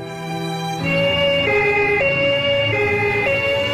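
An emergency vehicle on duty sounds its siren, loud and steady, switching back and forth between a higher and a lower tone after a brief lead-in of lower noise.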